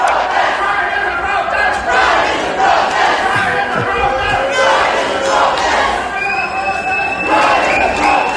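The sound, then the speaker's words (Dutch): Crowd chanting and shouting at a small pride march along a seaside street promenade in Ostend, loud and continuous, with rhythmic swells of many voices rising and falling throughout. “in Oostende zijn jullie na de voorstelling ook op straat gegaan, een soort mini-pride. Dat was een primeur voor Oostende, dat klonk ongeveer zo.”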